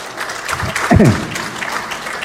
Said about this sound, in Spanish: Así que ustedes mismos, ese un aplauso por estar aquí en esta mañana